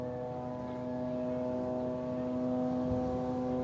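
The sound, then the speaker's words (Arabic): Israeli warplanes flying very low over the eastern sector of southern Lebanon, heard as a faint, steady, humming drone of constant pitch that grows slightly louder. “في هذه الأثناء تحلق المقاتلات الحربية الإسرائيلية على علو منخفض جدا في القطاع الشرقي”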